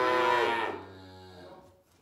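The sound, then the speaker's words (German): A calf unloaded from a wagon moos while looking for its mother, giving one loud, drawn-out, lowing call that fades toward the end. “dann suchen sie ihre Mütter. Und wenn die Mütter nicht leicht zu finden sind, dann gehen die Kälber ab.”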